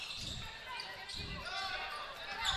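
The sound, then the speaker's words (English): A basketball is dribbled up the court during a game, making a few dull, low bounces under steady background noise. “dribbling up the court”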